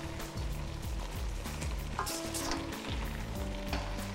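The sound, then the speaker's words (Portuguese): A spoon stirs Brazilian plantain stew (moqueca de banana-da-terra) in a pan, with many soft, repeated scrapes over a steady sizzle and bubbling, and no talk. “Misture bem, mexendo levemente.”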